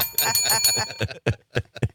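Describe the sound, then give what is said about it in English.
A bell rings many times in quick succession with bright, ringing tones. Early strikes run together, then the later rings come as sharper, separate hits with short gaps between them. “Give him the bell.”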